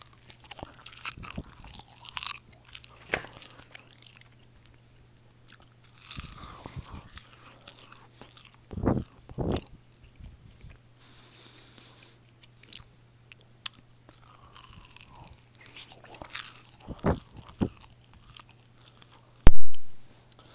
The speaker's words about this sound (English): So let's go right into it. ASMR taquitos. Here we go.